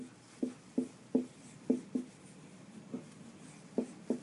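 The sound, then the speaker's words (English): Writing on a board: about eight short, scratchy strokes tapped out in an uneven rhythm, faint and with no voice over them. “Let's write this one down on the board.”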